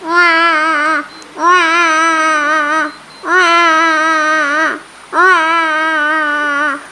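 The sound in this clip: A baby cries in four long, high wails, each lasting one to two seconds with a wavering pitch. Short pauses separate the wails, and the cries stand alone with no talk.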